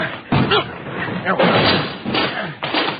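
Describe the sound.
Police break in a door with heavy, booming thuds and slams that repeat a few times, mixed with loud shouting voices throughout.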